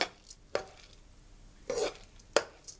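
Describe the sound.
A utensil stirs coconut cream into glutinous rice, giving a few faint, sharp knocks and a short scraping rub against the pot or bowl, separated by quiet pauses.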